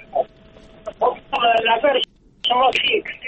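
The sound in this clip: A radio listener's voice arriving over a telephone line on a call-in show, narrow and tinny speech in short bursts broken by brief pauses.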